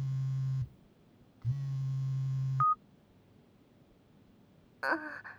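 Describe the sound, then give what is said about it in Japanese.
A smartphone rings with two long, buzzy electronic tone bursts separated by a short pause, then a brief higher beep, followed by quiet and a short final burst. “あれ、お兄さん、スマホ鳴ってますよ。”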